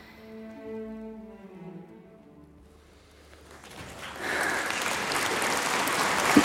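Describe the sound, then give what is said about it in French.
An audience at a classical concert gives a singer a standing ovation. A few sustained musical notes come first, then loud, dense clapping swells in and holds steady to the end. “On dirait bien qu'ils m'aiment. Ils sont debout. Ils applaudissent.”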